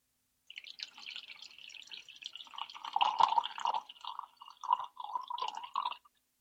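Liquid is poured from a bottle into a glass in a faint, continuous trickling gurgle that runs for about five seconds with no other sound, growing a little louder midway before stopping.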